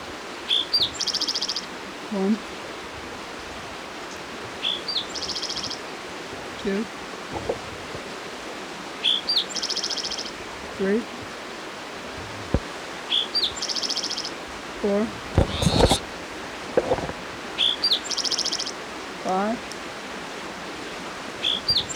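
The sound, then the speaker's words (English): A spotted towhee singing beside a creek: short introductory notes followed by a buzzy trill, repeated many times at fairly regular intervals over steady rushing creek noise. “It's your spotted towhee number 5 for the Hendrys Creek area.”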